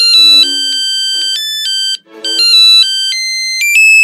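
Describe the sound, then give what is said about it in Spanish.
A mobile phone ringtone plays a bright, melodic electronic tune of clear, high stepped tones. It runs as two loud phrases with a short pause between, and no voices are heard. “descolgó su móvil”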